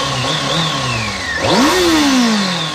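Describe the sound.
Motorcycle engine revving as the riding season begins: a loud, continuous engine whose pitch climbs sharply midway, then slowly sinks, with no voices over it.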